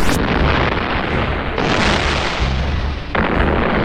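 Rockets fired and exploding in a battle, a loud, dense, sustained roar of blasts that starts abruptly and swells in a couple of surges, with no voices over it.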